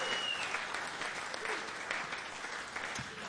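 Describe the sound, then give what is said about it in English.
An audience claps for the sound crew at a live show, a full, even burst of applause that holds steady for a few seconds. “How about a big, big hand for Myron?”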